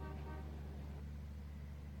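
Inside a noisy, crowded city bus in traffic, a faint, steady low engine drone runs throughout, with a brief horn-like tonal note at the very start.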